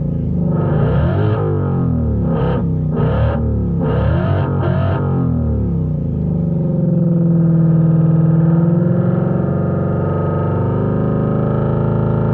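A vehicle engine responds as the throttle is pressed, producing a loud, harsh mechanical drone whose pitch sweeps up and down several times before settling into a steadier, evolving tone.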